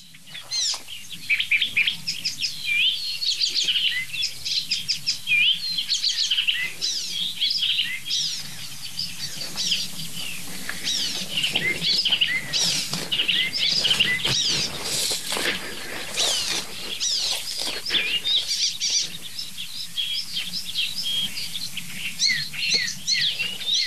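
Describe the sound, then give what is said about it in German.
Icterine warbler song, a bird of open country with bushes and dense hedges whose song consists almost entirely of imitations: a continuous, busy stream of varied chirps, trills and rapid high notes, fairly loud and alone without talk. “Der Gesang des Gelbspötters besteht fast ausschließlich aus Imitation.”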